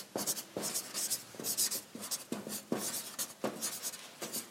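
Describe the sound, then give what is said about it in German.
Handwriting a heading: many quick, scratchy pen strokes in irregular bursts separated by brief pauses, heard alone without talk. “da schreibe ich jetzt einfach mal die Überschrift hin”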